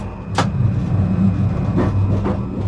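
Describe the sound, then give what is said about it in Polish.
Tram passing along a city street near a pedestrian crossing: a continuous low rolling rumble with a few sharp metallic clicks scattered across it. “A co tam, tramwaj będzie jechał.”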